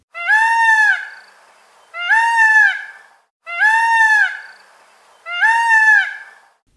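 Peacock calls: four loud, nasal, high wails, each about a second long with a quick upward sweep at the start. They repeat at even intervals with nothing else around them.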